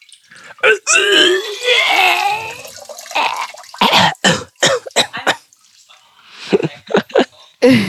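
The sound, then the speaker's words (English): Foley vomiting effect in a bathtub: wet, gurgling, throaty gushes lead into many sharp, irregular drips and splatters of water, loud and uneven in rhythm. “So let's say someone's puking in the bathtub. And so what we'll do is we'll edit out the gush at the front, but we'll get the sound of the water dripping down. So it sounds something like this.”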